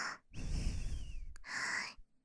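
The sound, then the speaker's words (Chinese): Heavy, out-of-breath breathing from a person held in a tight embrace: a long, rasping breath in and then a shorter, forceful breath out, fairly loud with no talking. “你抱我抱得太紧了，我喘气有点累。”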